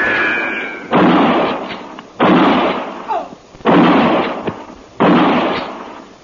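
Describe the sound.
Four loud rifle gunshots ring out in a radio-drama gunfight at fairly even intervals. Each is a sharp blast trailing into a rumbling decay of about a second, with a few smaller thumps in between.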